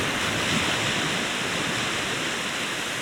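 Waves wash at the water's edge on a sandy shore in a steady, dense roar of surf noise. The sound stays even, with no distinct breaks across the few seconds.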